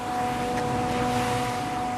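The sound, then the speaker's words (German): Trucks and excavators clear stone and rubble left by a mudslide, heard as a steady, loud engine rumble with a constant droning hum and no distinct separate events. “Noch fahren die Lkw, noch arbeiten die Bagger, noch türmen sich Tonnen an Steinen und Geröll.”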